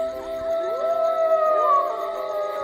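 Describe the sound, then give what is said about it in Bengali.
Wolves howling in a castle courtyard, several long overlapping tonal howls gliding upward and holding steady, layered into a sustained mournful chorus with no talk. “উঠোন থেকে তখন ভেসে আসছিল নেকড়ের চিৎকার।”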